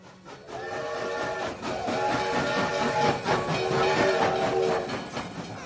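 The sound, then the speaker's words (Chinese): A fast train runs past the Shanhaiguan pass, giving a steady rumbling clatter of wheels on track with a sustained tonal hum over it. It stays continuous and fairly loud throughout. “三叔，您瞅这火车还挺快哈，眼瞅着这就出了山海关了。”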